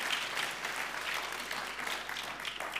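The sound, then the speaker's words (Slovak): An audience applauds its pastors during a church service, a fairly faint but steady and dense patter of clapping that continues evenly throughout. “Zatlieskajte našim pastorom.”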